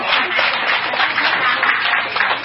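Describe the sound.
Audience applause at a Buddhist dharma talk for monks and nuns: a dense, steady wash of clapping hands that holds at an even, fairly loud level for about two and a half seconds.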